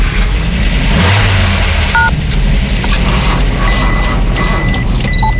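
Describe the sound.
A car engine runs while driving, giving a loud, steady low drone with road noise that stays even throughout.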